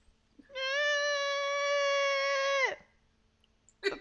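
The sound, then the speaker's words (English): A cat gives one drawn-out, strange meow, held steady for about two seconds in a loud, nasal, bleat-like tone that stops abruptly, followed by a brief faint noise. “They're like weirdly meowing.”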